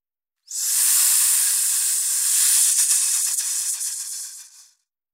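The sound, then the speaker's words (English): A steady, loud hiss, bright and airy, holds for about four seconds before tapering off, alone with no other sounds. “Hiss.”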